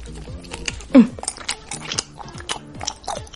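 Sugar-coated cola and soda gummy candies are chewed up close with irregular, moist squelching bites and one louder crunchy bite. Brief vocal hums come between the chews.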